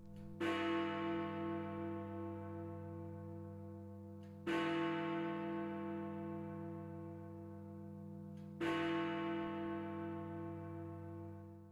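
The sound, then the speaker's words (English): A large clock tower bell in London strikes the hour with three deep, resonant bongs, evenly spaced about four seconds apart. Each strike rings on in a long, humming decay that slowly fades before the next. “That is the sound of Big Ben.”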